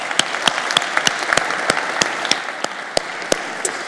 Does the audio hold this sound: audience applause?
yes